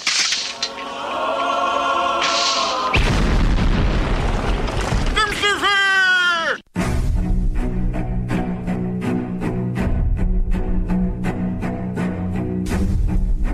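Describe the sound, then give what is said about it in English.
A grenade explosion: after a brief tone, a heavy boom erupts into a loud rumble, followed by shrill sweeping tones. A sudden cut leads into a long stretch of dense, rapid crackling. “Grenade. One, two, five.”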